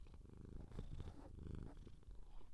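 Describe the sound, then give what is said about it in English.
A house cat purring, a soft and steady low rumble that pulses with its breathing, quiet and continuous throughout. “sorry, I'm working around the cat. If you hear purring, hang on, can you hear this?”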